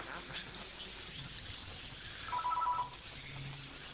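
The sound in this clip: A mobile phone rings during a lecture: a short, steady electronic ringtone sounds briefly and stands out over quiet background noise.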